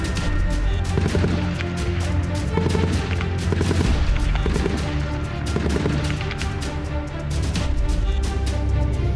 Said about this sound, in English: We are on the Golan Heights near the Syria border at a live fire drill with the Israel Defense Forces, a nighttime drill.